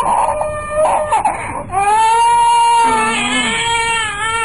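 A small child cries loudly, a sustained, high wailing sob that swells and wavers after a brief rustle at the start, with no other voices.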